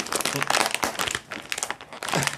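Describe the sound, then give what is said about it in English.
Stiff packaging crinkles and crunches as someone in a kitchen works it open, a dense run of rustling, crackling bursts that briefly thins near the middle before picking up again. “This packaging is pretty rough. I could get the scissors. Just about got it. You can stab it.”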